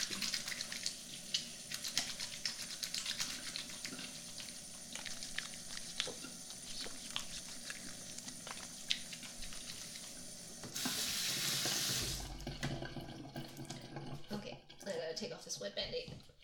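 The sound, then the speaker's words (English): Running tap water at a sink as hands are washed, one finger bandaged over a cut: a short, louder rush of water stands out against otherwise quiet household noise. “Very important to wash your hands right now.”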